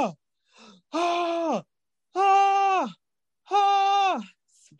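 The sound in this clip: A voice imitates someone in pain struggling for air: three long, strained, groaning gasps, each falling slightly in pitch at the end and separated by short silences, with a fainter brief breath between.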